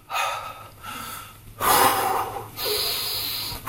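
Loud, deliberate breathing done as a warm-up exercise: a few forceful, airy breaths, with sharp, noisy inhales and exhales that have a snorting, gasping edge. No speech.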